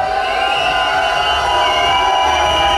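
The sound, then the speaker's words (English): A crowd cheers and makes noise at a reggae sound clash in Bratislava, Slovakia, a dense, loud, continuous roar of voices with no break. “If you feel like that the second team that play better. Make some noise and put your two hand in the air.”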